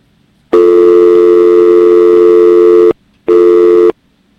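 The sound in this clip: Telephone busy tone after a call is cut off: a loud, steady buzzing tone lasts over two seconds, then after a brief gap a second, shorter burst sounds.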